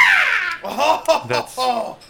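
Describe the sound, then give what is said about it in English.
A person's voice imitates a bird of prey's mating call: a loud, high shriek that falls in pitch, followed by a few shorter warbling vocal cries. “That was impressive. That was amazing. That was like a bird of prey. I feel like that was like a mating call of some kind.”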